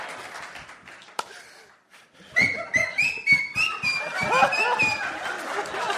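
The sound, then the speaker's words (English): A person whistles during a comedy show, a warbling, high-pitched whistle that wavers up and down over audience laughter and chatter, with voices around it. “That whistle was to bring everything right back to where it was.”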